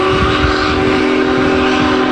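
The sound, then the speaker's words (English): A Union Pacific Big Boy steam locomotive crosses the Cuyahoga River in Cleveland, its multi-tone whistle held loud and steady over a low, rumbling train noise. “Union Pacific number 44, made the brief stops in Lorain and Euclid.”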